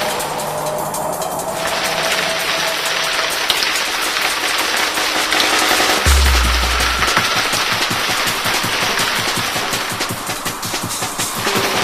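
Rain falling at night, a dense, steady patter and crackle that hisses evenly throughout without pause, loud and alone with no voices.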